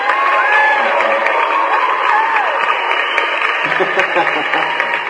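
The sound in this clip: Steady crowd applause with cheering fills the entire clip, dense and fairly loud, offered for guests from a credit bureau on a Spanish-language radio show about debt.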